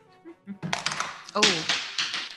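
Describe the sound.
A die dropped during a tabletop role-playing game perception check clatters in a quick run of sharp taps and rattles, following a few soft sounds and mixed with players' voices.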